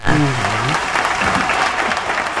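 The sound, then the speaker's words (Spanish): Applause from a gathered crowd, a loud unbroken wash of clapping, with a brief voice rising over it at the very start before the clapping carries on alone. “Esos aplausos.”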